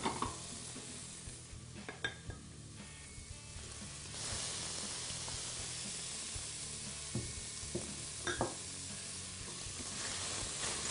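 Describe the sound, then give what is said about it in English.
Shrimp sautéing in a pan with lightly browned shallots make a steady, even sizzle. A few sharp scrapes and clinks from stirring rise above the continuous frying hiss. “Now it's time to add the shrimp.”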